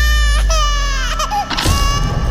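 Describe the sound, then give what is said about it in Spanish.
A small child cries and sobs in loud, high-pitched wails. The crying is nearly continuous, with brief catches of breath before a final drawn-out cry. “¿Alguna vez ¿Te has preguntado por qué lloramos?”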